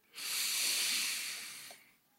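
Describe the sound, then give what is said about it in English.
A single long, deep inhaling breath: a soft, airy hiss that swells quickly, holds for about a second and a half, then fades, heard alone without talk. “He just breathes it in.”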